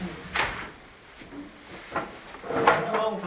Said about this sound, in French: Peut-être on ferme la fenêtre, ça fait du bruit. On peut fermer la fenêtre.